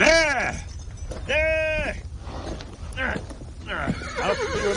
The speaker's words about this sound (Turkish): Hay aksi, nasıl gömüldü ayakların kuma? Hadi hadi kalk, kalksana. Neden çıkmıyor bu at kumun içinden?